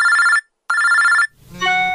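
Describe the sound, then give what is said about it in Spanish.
A telephone rings for an incoming call: two bursts of bright, trilling electronic ringing separated by a short gap, followed by a different softer tonal sound. No talking. “Ahora Mari recibe una llamada alentadora.”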